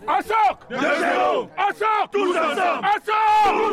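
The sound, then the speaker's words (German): A visiting veterans football team from Cameroon chants a battle cry on a village football pitch before their first match. Many voices shout and sing together in loud, rhythmic bursts with short breaks between them. “Ein ungewöhnlicher Schlachtruf erklingt da auf dem Fußballplatz im Dahlingeröder Ortsteil Öhrenfeld.”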